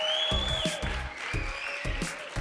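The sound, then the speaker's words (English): Sustained applause from a church audience welcoming everyone across several campuses, a dense, steady clatter of clapping that holds at an even level from start to finish. “Can we put our hands together and just welcome everybody right now?”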